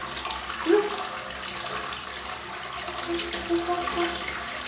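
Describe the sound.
Water rushes away as a toilet is flushed, a continuous loud gurgling flow that runs steadily throughout, with a few brief louder surges.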